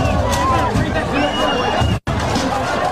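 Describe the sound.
Concert crowd noise from fans having a great time, several clips spliced together: a dense, loud babble of many voices and shouts, broken by one brief dropout of silence where the clips are joined.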